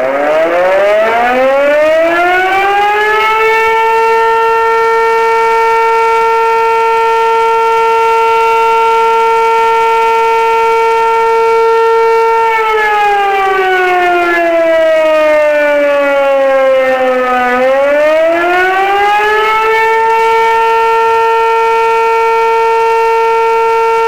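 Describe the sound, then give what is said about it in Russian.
Loud, wailing siren during a test of the public emergency warning system, with fire, police and rescue vehicles taking part. The harmonic tone climbs, holds a long steady pitch, dips lower, then rises back and holds again, with no voices. “В проверке также принимают участие со звуковыми сигналами автомобили пожарной части, отдела полиции и поисково-спасательного подразделения.”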